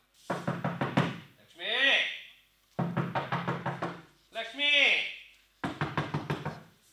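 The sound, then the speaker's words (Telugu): Knocking on a door comes in three bursts of quick raps, each of several knocks, and a voice calls out between the bursts. “ఎవరు? బాబ్బా ఎవరో తలుపు బాధేస్తున్నారు.”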